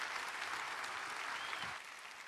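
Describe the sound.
An audience claps to welcome a speaker at a Hill Country gathering. The dense, steady applause stays even, then eases slightly in volume near the end.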